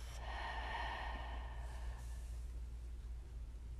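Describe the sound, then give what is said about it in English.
Faint breathing: a deep inhale through the nose, then a softer exhale through the mouth, airy and quiet, fading in the second half, with no talk. “Take a deep inhale in through the nose Releasing exhale through the mouth.”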